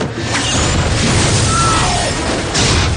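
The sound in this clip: A film explosion as a missile fired from a helicopter destroys a jeep-like vehicle on sand: a loud, dense, continuous roar of rumble and debris noise that swells again near the end.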